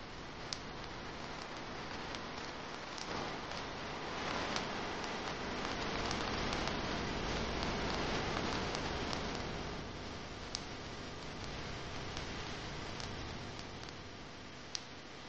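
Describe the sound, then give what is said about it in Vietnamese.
Rain falling outside a temple, a steady, soft hiss of drops with scattered light ticks, even and unbroken from start to finish, with no voices. “Ngoài cửa không biết lúc nào đã bắt đầu mưa”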